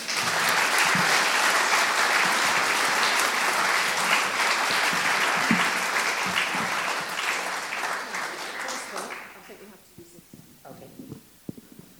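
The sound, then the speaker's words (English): An audience applauds to welcome a guest speaker at an evening distinguished address in Bristol. Dense, steady clapping holds for about nine seconds, then thins and dies away into a few scattered claps. “Please put your hands together and welcome our guest speaker for the evening, Darren Henley.”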